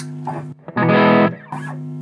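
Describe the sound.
Maxed-out distorted audio effect: a harsh, saturated sustained burst of about half a second, set between softer, processed tonal passages.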